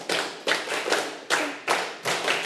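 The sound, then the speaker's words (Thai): Children clap their hands in unison in response during a lesson, a steady run of six sharp, evenly spaced bursts, each trailing off briefly before the next, with no talk. “ถ้าเข้าใจแล้วปรบมือ10ครั้ง”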